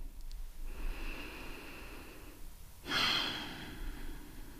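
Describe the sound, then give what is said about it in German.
Slow, deep breathing in and out during a guided relaxation exercise, heard as long, soft, airy breaths on their own with no talking. “Atme mal dreimal tief ein und wieder aus.”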